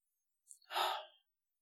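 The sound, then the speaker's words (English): One full, deep breath in and out, soft and airy, heard alone in silence. “take a full breath, like a full deep breath. Like, I'm doing it with you. Sometimes it can feel weird, but literally breathe all the way in and all the way out.”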